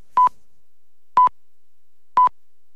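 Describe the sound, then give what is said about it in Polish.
Three short, pure beeps of the radio time signal from the national measures office, evenly spaced about one second apart. Each is clear and identical in pitch, with silence between them. “My polecamy niezawodny sygnał czasu z Głównego Urzędu Miar nadawany przez Polskie Radio.”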